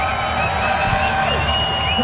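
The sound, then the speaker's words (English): A baseball crowd in Reno cheers during a game, with sustained crowd noise and cheering that holds at a steady level throughout. “So a big crowd giving something to cheer about here in Reno.”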